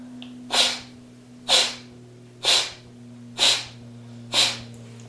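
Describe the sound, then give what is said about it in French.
Five sharp, forceful breaths are pushed out through the right nostril with the left held shut during a breathing exercise. Each is an evenly spaced, breathy burst of hiss about a second apart, over a steady low hum. “fermez la narine gauche avec l'annulaire. Observez le souffle qui monte dans la narine droite. Chassez 12 fois.”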